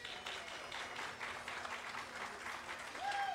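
An audience applauds in welcome for an Irish dance company, with steady, dense clapping from many hands that stays even and lively throughout.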